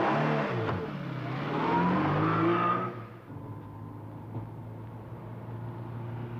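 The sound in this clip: A car engine revs hard, its pitch climbing, then drops back to a steady, loud running drone.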